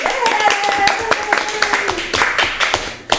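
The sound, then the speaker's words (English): A person claps hands, many sharp, irregular claps in quick succession, with people talking over them. “I don't know why he's clapping either.”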